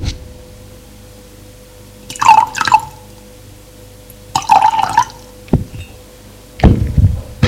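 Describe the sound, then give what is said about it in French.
Water is poured from a carafe into a glass in three short splashing bursts, separated by quiet gaps and a few small drips, with no voices. “La femme de chambre met sur la table de nuit une carafe d'eau et un sucrier. De sucre en poudre. Il remplit le verre d'eau.”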